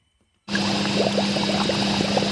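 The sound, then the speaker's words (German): Beer wort bubbles and steams in a Brooklyn brewhouse: a steady broad hiss starts abruptly, with small scattered bubbling pops and a low constant hum underneath. “Im Brauhaus der Talea Brewery in Brooklyn blubbert und dampft es.”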